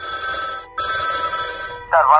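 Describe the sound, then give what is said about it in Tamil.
A telephone ringing with an incoming call gives a steady, buzzing multi-toned ring that breaks off briefly and resumes, followed by a brighter warbling burst at the end. “திரு கிருஷ்ணமூர்த்தி அவர்களிடமிருந்து மீண்டும் ஒரு கால் வந்தது”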